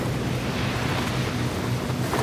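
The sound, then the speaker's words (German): Ocean surf roars as a wave rises for a surfer, a broad, continuous wash of rushing water mixed with wind noise, steady in level throughout with no voices. “Und da ist sie plötzlich. Fest und homogen. Die Welle.”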